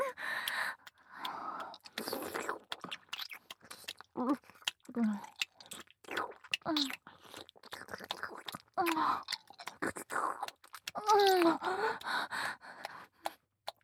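Wet, smacking mouth sounds of deep tongue kissing with saliva come in irregular bursts, mixed with gasps, breathy sighs and brief voiced moans, all fairly soft.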